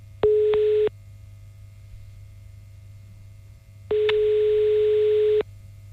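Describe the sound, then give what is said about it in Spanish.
Telephone ringback tone while a call is being placed: two long, steady beeps at one pitch, separated by a pause of about three seconds, over a faint low hum. “Vamos a llamar a Belén y a ver si esta llamada sirve pues un poquito para arreglar las cosas”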